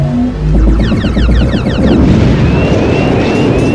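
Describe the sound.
Crossfire during a fight in an airspace: many rapid weapon shots sound as quick bursts with falling-pitch streaks over a loud, continuous roar, with no voices.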